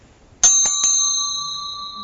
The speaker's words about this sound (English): The view is where the bell is where the sound is.